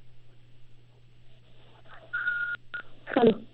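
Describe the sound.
Touch-tone keypad beeps sound as a telephone call is dialed: a couple of steady, mid-pitched tones, the first held and the second short, over a constant low electrical hum.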